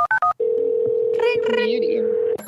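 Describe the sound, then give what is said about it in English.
Telephone keypad tones for an incoming call: three quick beeps, then a steady dial tone held for about two seconds, with brief voice sounds over it. “Oh, wait, what? Oh, there's another caller.”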